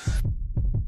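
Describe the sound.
A human heartbeat beats twice, each beat a deep, muffled lub-dub pair of thumps, after a brief hiss at the start.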